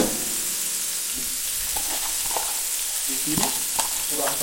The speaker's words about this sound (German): lassen die Margarine schmelzen. Und, und dann die Zwiebeln einfach in den Topf.